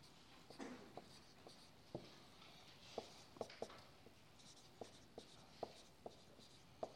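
Pen strokes from someone drawing by hand: many short, scratchy marks in an uneven rhythm, faint and alone, with no voices.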